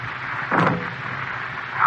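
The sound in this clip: Gunshot fired through a silencer in a radio drama effect, a single short, muffled burst standing out against a quiet background.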